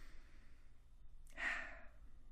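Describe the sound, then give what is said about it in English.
One deep breath taken slowly during a relaxation exercise, a soft, airy rush of air that swells and fades on its own in otherwise near silence. “just take a deep breath with me.”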